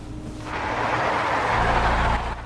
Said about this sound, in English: They pull away through the bland, colourless parking area towards the main road, another timber truck close behind them.